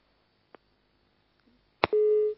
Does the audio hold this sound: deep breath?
no